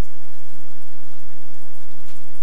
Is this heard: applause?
no